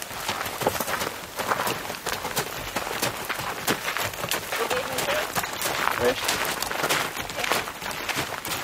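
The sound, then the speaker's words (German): Horses walking on a trail ride, with riders and two pack horses carrying baggage, their hooves clip-clopping in a steady, continuous rhythm throughout. “Günther setzt sich seinen großen Cowboyhut auf und reitet mit Dino an der Spitze. Sonja am Ende auf Lightfoot. Die anderen beiden Pferde tragen das Gepäck.”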